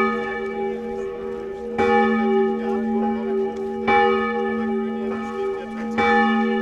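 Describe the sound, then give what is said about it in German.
Church bells ring at the Berlin Wall memorial on Bernauer Straße. Three deep, resonant strikes come at steady intervals over a continuous humming ring. “An der Mauergedenkstätte an der Bernauer Straße in Berlin läuten die Glocken.”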